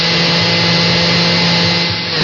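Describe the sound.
A blender mixes condensed milk, milk, egg yolks and vanilla, giving a loud, steady motor whir with a constant low hum that runs unbroken throughout, with no talking.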